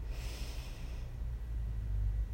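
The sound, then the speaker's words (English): A deep breath in and out, beginning with an airy, hissing inhale and then easing into a softer, lower exhale, alone with no voices. “another deep breath in and out, and another deep breath in”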